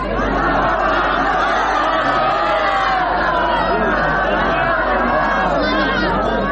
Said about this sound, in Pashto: د لشکرګا په کرزینو مې لوبغالي کې سلګونه کسان د تاوتریخوالي د کمښت د اونۍ جشن ته راوتلي دي.